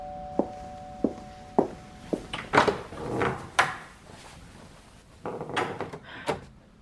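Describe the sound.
Door being opened, heard as a series of wooden thunks and knocks followed by clattering, rattling handle and door noises, with no talk over them.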